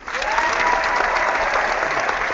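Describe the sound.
Crowd applause at a live show, a dense, even wash of clapping that starts abruptly and holds level to the end.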